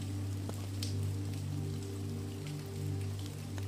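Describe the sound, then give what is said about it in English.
Rain falls as a soft, continuous patter with scattered brighter drop ticks over a faint, steady low hum, staying quiet and even throughout. “The falling rain helps guide you into a peaceful slumber, knowing that you are safe”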